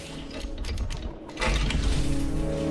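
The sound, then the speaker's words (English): Someone tries a locked door: a short burst of mechanical rattling and clicking from the handle and latch, followed by a louder, steadier scraping rumble. “He tries the door, but it's locked.”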